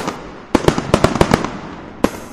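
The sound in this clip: Sharp, loud hand claps from an audience, a burst of about eight separate cracks in quick, uneven succession, then a short pause and one final clap.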